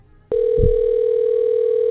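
A steady telephone tone on an outgoing call: after a brief quiet start, one loud continuous tone begins and holds unbroken to the end, with a soft low thump near its start.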